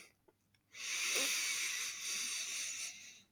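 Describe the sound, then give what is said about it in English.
A deep breath in: one long, airy inhale that rises sharply, holds as a steady breathy rush for about two and a half seconds, then cuts off. No one speaks. “You inhale and exhale. Deep breath in.”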